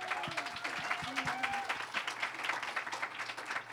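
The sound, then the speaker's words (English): Audience applause for a panel at a church service, a dense steady patter of many hands clapping at moderate volume throughout, with a few faint voices mixed in. “So can you give our panel a hand?”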